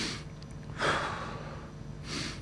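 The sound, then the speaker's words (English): Two heavy, deliberate breaths, taken by a man while preaching, come as short, faint, breathy gusts about a second apart, with no talk in between. “What have I just done? I've just taken two breaths so that you can see me heaving here.”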